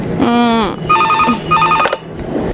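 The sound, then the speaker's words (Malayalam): An electronic landline telephone rings in two short warbling bursts, its tone trilling rapidly between two pitches, with a brief voice-like sound before it. “ഞാൻ എന്റെ mobile ഇന്നലെ രാത്രി switch off ചെയ്തിട്ടിരുന്നു അതുകൊണ്ട് ആരെങ്കിലും land ലൈനിൽ വിളിക്കുന്നാവും”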